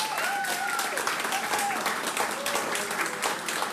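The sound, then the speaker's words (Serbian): Concert audience applauding at a live evening show, a sustained, thick patter of clapping with raised voices and cheers rising above it. “Kakva atmosfera večeras. Zaslužili ste još jedan veliki aplauz.”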